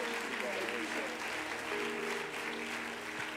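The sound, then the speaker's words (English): A church audience applauds to welcome guests back home during a service, a dense, steady wash of clapping that keeps an even loudness from start to finish. “Let's give them a great big hand as Brother Malloy greets you this morning.”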